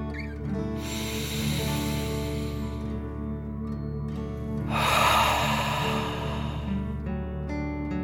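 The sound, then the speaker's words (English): Deep "dragon breath" breathing in and out: two long, airy, hissing breaths, the second one louder and fuller, with no talk over them. “Feel the warmth and take a deep dragon breath, in and out.”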